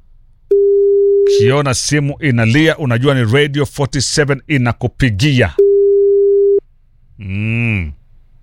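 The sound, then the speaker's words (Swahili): A telephone line tone rings out as a steady single-pitched hum, heard twice for about a second each, with a stretch of lively voices between and a brief voiced sound after. “Ukiona simu inalia, unajua ni Radio 47 inakupigia.”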